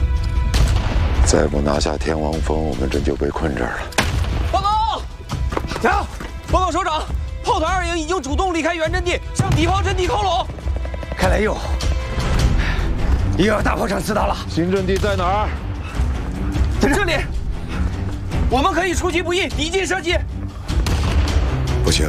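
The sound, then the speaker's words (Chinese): Artillery fire in a battle: many heavy booms and bursts of gunfire roll through the whole stretch, mixed with loud, urgent voices talking over them. “天王山主攻攻不了去，他们的炮火太强大了。他们的炮火密度比我们高，精度也够准”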